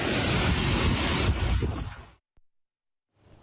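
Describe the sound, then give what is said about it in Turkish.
Strong wind roars and buffets a mobile phone microphone in Su Düğünü village in Bingöl, with dust blowing. The rushing noise is loud and steady, cuts off abruptly, then returns faintly at the very end. “Bingöl'de de Su Düğünü köyünde şiddetli rüzgar etkiliydi. Ortalık tozla kaplandı. Rüzgarın şiddeti cep telefonu kameralarına yansıdı.”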